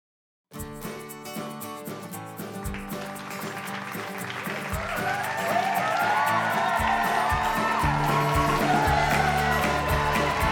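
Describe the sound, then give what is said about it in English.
Canned studio-audience cheering and applause rolls on as a continuous dense wash of clapping and crowd noise, growing louder after a few seconds and holding steady to the end. “just turn the stupid audience off. It's not even real. Nobody's going to believe it.”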